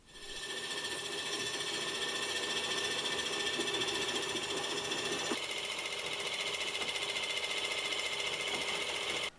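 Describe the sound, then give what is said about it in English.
A lathe top slide being traversed along a worn, S-shaped slideway gives a steady mechanical whirring drone whose tone shifts slightly midway before it cuts off abruptly at the end. “As I traverse the top slide, watch the indicator needle. You can see the slideway has worn with an S shape.”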